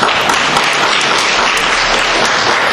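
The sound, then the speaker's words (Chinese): A church audience applauds to welcome visitors at a Christmas service, dense, loud, continuous clapping from many hands without a pause. “弟兄姊妹拍掌好吧，欢迎他们。”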